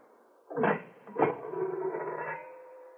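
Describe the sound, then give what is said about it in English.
A kiln door is opened: two heavy clunks in quick succession, then a drawn-out tonal scraping drone that slowly fades. “I will open the kiln.”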